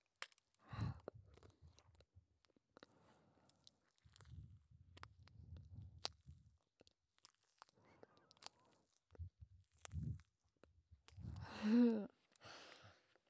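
Quiet, crunchy chewing of food dipped in sauce, coming in a few separate bursts of crisp mouth sounds with near-silence between them, the last burst the loudest.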